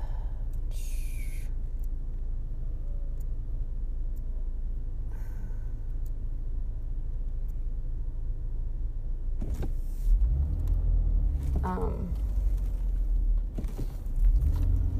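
Low, steady road rumble from inside a moving car, with the traffic noise swelling louder and a whirring mechanical sound rising near the end.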